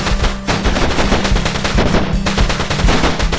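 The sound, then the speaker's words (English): Loud, rapid gunfire from a big cannon being fired, with dense, overlapping blasts in a continuous barrage throughout, no gaps and no voices. “No, boys. The big cannon. Aim. Fire. Fire, boys. Give it all you got.”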